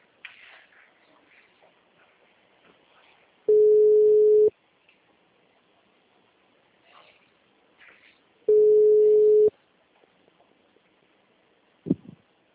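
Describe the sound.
A telephone tone after a dropped call: two steady, mid-pitched beeps, each about a second long and separated by a long gap, over faint line noise, with a short click near the end.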